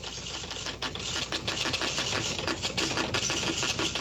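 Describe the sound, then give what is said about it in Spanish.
A news wire teleprinter in a broadcast booth clatters rapidly as it prints national and Associated Press news onto paper: a dense, unbroken run of sharp mechanical strikes at an even, busy rhythm, with no voices. “Sí, le tenemos que cargar papel y toda la noche estaba escribiendo noticias, toda la noche. Así se escuchaba.”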